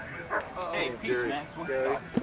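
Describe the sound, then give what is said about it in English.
A dog barks and yips in a few short bursts, overlapped by people talking. “That's my dog.”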